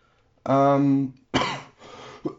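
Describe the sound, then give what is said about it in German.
A cough heard as short, rough, breathy bursts after a brief voiced sound, fairly faint overall. “Und da haben wir den ersten Huster des Tages.”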